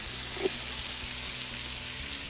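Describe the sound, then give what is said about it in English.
Lamb pieces sizzling in a hot pan, a steady, faint frying hiss with a single small pop near the start. “this pan is hot. He likes his little medium done. It's as simple as that. Just throw them back in the pan.”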